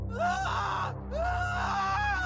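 A boy screams in fright as his hammock rope snaps: two drawn-out cries, each rising in pitch at its start, split by a brief pause, fairly faint over a low steady background hum.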